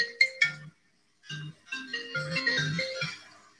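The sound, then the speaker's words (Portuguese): A phone ringtone sounds for an incoming call, a bright electronic melody of clear tonal notes: a short opening phrase, a brief silence, then a longer, busier run of notes. “Pausou aqui, gente, que alguém tentou me ligar.”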